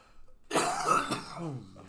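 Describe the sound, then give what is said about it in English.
Harsh coughing from a person, starting abruptly after a brief quiet moment and running together into a loud, sustained fit of several coughs with some throat clearing. “coughing, lots of coughing.”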